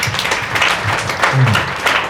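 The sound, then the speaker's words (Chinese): Applause from an audience at a forum talk on nutrition, a loud, dense, continuous wash of clapping with no clear gaps. “一个热烈掌声，给我。”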